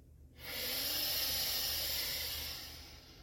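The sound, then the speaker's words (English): A single long nasal breath drawn through one nostril during alternate-nostril breathing, heard alone as a soft, steady airy hiss that swells quickly, holds for about two seconds and then tapers away. “In and out through the other nostril.”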